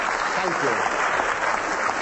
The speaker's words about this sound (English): Round of applause for the writers. Round of applause.